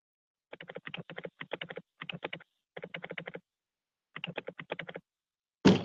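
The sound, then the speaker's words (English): Typing on a computer keyboard: several quick runs of crisp, rapid keystrokes separated by short pauses, ending with one louder thump. “He's typing on his keyboard.”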